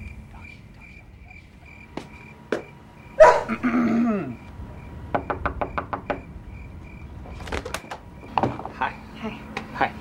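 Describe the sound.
A dog gives short, sharp vocal bursts among a series of dry knocking taps, with soft, hushed voices underneath.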